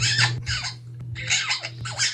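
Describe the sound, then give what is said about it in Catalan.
A parrot squawks in several short, harsh, chirpy bursts separated by brief gaps, over a faint steady low hum. “Fins i tot el lloro t'ho diu.”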